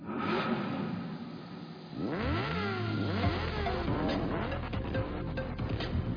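A clean car engine revs with loud, sweeping rises and falls in pitch, several revving swells and whoosh-like surges following one another without speech.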